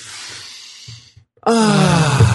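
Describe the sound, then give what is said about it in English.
A person takes a deep breath: a soft, airy inhale, a brief pause, then a louder exhale that turns into a voiced, sighing tone. “So first, let's take a breath and clear our mind.”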